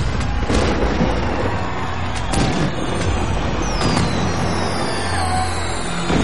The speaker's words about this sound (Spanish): De noche, fuegos artificiales colorean el cielo.